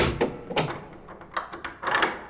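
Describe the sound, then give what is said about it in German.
A door being locked with a heavy steel bolt at a building in the Vatican gardens: a quick series of knocks, clunks and scraping handling noises, uneven in rhythm and moderately faint, with no voices. “Janus uns dann in ein kastenförmiges Gebäude und verriegelte die Tür mit einem schweren Stahlriegel”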